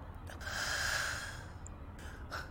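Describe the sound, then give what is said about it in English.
A shaken, upset person breathes in and out deeply: one long airy rush swelling and fading, then a couple of shorter breathy puffs, fairly soft throughout. “Breathe in. Oh, Out.”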